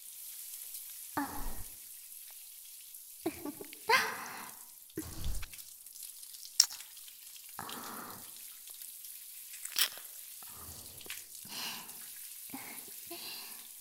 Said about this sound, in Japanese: ちゃんと脇のあたりもしっかりこすってお流しいたしますね。